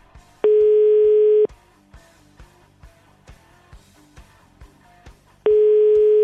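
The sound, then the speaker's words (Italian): Telephone ringback tone on a call to an unreachable mobile phone: two loud, steady tones about one second long and five seconds apart, with faint rhythmic ticking in the quiet between them. “Vi faccio sentire il telefonino di Mino Raiola oggi per tutta la giornata.”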